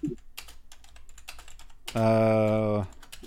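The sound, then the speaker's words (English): A computer keyboard is typed on in quick, irregular clicks for about two seconds. A louder sustained tone then briefly covers the clicks. “while I'm trying to type that”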